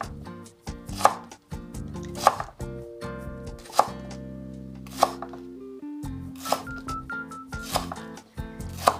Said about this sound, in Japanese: そして端から切っていきます。で、えっと、薄切りって言ってもこう極薄というよりはそうですね5ミリぐらいでしょうか。